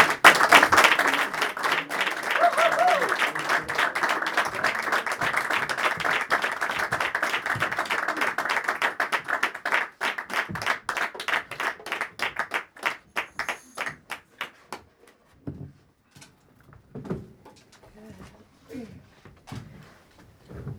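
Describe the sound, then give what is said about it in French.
Audience ovation welcoming a group of singers on stage at a concert: dense, loud applause for about fifteen seconds, then thinning into scattered, uneven claps and a few isolated ones at the end. “Et on les reçoit avec une ovation.”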